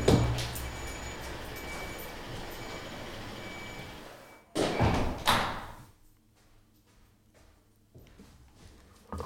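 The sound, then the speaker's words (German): A window being shut: steady background noise runs on, then a brief sliding thump, after which the noise drops away and it turns much quieter. “Ja, ich muss mal das Fenster, glaube ich, zumachen.”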